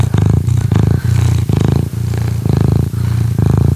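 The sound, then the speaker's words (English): A pet cat purring: a low, buzzing rumble that swells and dips in many even in-and-out cycles, about twice a second, steady and close throughout with no voices. “That's my cat, Charlie.”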